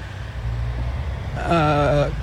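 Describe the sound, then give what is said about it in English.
Trucks rolling in the Kempsey Truck Show parade: a low, steady engine rumble, then a loud multi-tone horn blast of about half a second near the end before the rumble carries on. “truck company joining the parade here this morning at for the 2026 Kempsey Truck Show.”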